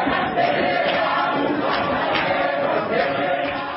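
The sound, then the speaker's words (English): A crowd of union members cheers a loud, resounding welcome for a suspended union leader at a union meeting, a dense, steady roar of many mixed voices that holds without pause throughout. “Ndola received a resounding welcome with SADC members displaying a banner with the face of both Vavi and Ndola.”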